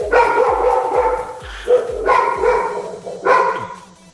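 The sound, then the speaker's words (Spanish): A dog barking: several loud, sharp barks at irregular intervals, with a soft rhythmic tapping underneath. “¡Hasta los perros están ahí!”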